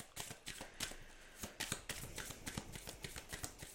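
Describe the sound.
Oracle cards being shuffled for a card reading: a quick, uneven run of many soft papery riffles and slaps, moderately loud, with no voices.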